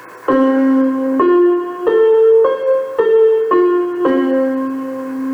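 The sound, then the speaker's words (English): Synthesized tones step through a three-notes-per-octave scale of C, F, A and C, with frequency ratios 1:1.33, 1:1.67 and 2. Each note is sustained and rich in harmonics, climbing in pitch, then stepping back down to end on the low note. “Another choice would be to use three notes per octave, where you have a frequency ratio of 1:1.33, 1:1.67, 2. That sounds like this.”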